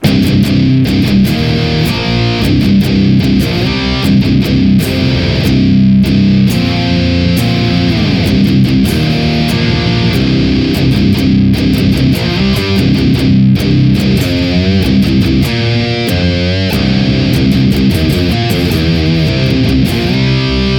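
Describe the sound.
Heavily distorted electric guitar played through a Neural DSP Fortin Cali amp plugin into a Mesa oversized Rectifier 4x12 cabinet, with loud, dense chugging riffs and long sustained notes that run continuously, no voices.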